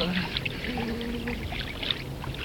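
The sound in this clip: Feet splash in cold water, a soft, continuous sloshing and trickling with small irregular splashes, while people talk over it.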